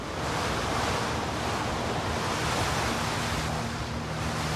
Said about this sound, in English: The icy wind continues to lash through the colony.